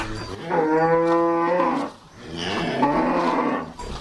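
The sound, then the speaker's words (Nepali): Cows moo on a large cattle farm beside the cowshed: two long, deep, drawn-out moos, the first steady and the second rougher, with a short gap between them and no talk. “म एकैछिन गाईहरू गराएको sound effect record गर्दै गर्छु”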